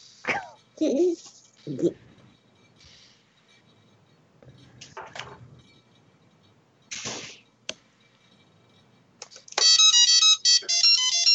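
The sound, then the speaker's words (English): A mobile phone ringtone plays loudly near the end, a bright electronic melody of stepped, high beeping notes. Before it come scattered quieter voices and short noises. “That's Willis's ringtone. That wasn't me.”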